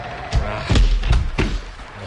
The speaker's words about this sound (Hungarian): Csukjátok rájuk az ajtót